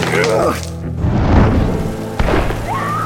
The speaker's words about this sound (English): Somebody's shooting!